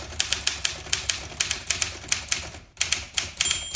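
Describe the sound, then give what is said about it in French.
Typewriter keys strike the ribbon in a quick, fairly regular run of many sharp clacks, with one brief pause before the typing resumes. “La machine à écrire.”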